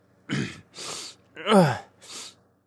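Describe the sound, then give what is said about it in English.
A woman clears her throat in a stuffy space, making four short, rough, breathy bursts in a row. The third burst is the loudest, and brief pauses separate them. “clears her throat. It's getting stuffy in here.”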